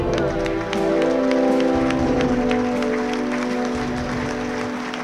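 An audience applauds to welcome the recipient of the 1994 Red Smith Sports Award in Wisconsin, a journalist honoured for contributions to sports journalism. The dense, steady clapping carries through the whole clip.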